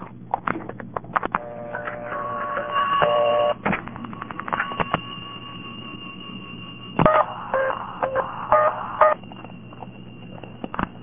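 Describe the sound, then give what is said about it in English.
A telephone line after the single digit nine is dialed: a run of rapid clicks, then bursts of electronic tones broken by pauses, with a low hum underneath throughout. “let me dial just the digit niner and listen to what happens when I dial just the digit niner.”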